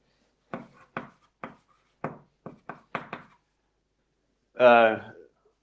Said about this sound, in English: I'm just going to write what the objects and the morphisms are, right?